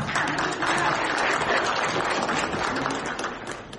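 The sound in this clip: Applause welcoming a speaker called to the stage at a talk: a full, dense round of clapping from an audience, steady and sustained, easing off slightly near the end.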